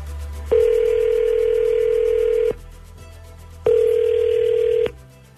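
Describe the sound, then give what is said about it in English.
A telephone call being placed, with the line ringing out: two long, steady, buzzing ring tones, each about two seconds long, separated by a silent gap of about a second. “Okay, I'm dialing him up now.”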